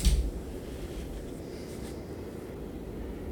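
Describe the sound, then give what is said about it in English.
A pen writing on paper as initiative scores are noted during a tabletop game, a short louder bump at the start and then continuous faint scratching. “Hold on, let me write down my initiatives.”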